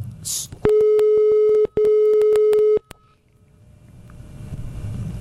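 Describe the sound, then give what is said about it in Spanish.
A telephone call tone sounds twice: two steady mid-pitched beeps, each about a second long, separated by a brief gap, then faint line hiss. “Silencio. Llamando.”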